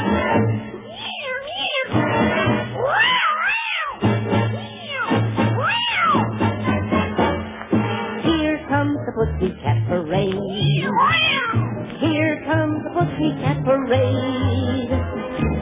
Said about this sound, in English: Have you heard those cats recently on the backyard fence?